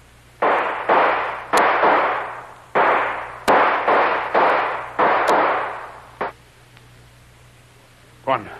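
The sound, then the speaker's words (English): A rapid volley of gunshots with bullets being fired. Each sharp crack trails off into a short, decaying noisy tail, coming in an irregular run of many shots, then a brief lull and one final shot. “Boy, that was close. One of those bullets blew my head off.”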